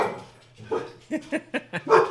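A dog barks in a quick series of short, sharp barks and yips, moderately loud and closely spaced.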